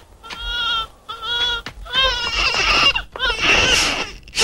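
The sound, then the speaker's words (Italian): A baby crying in a few shrill, bleating wails separated by brief gaps. The later bursts are louder and more strained, with no clear speech over them. “Per carità, non fatelo piangere. Calmati, calmati. Il tuo papà è qui, non piangere.”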